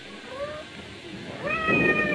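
A cat meowing twice, a short, thin meow followed by a longer, louder and more drawn-out one, with no voices.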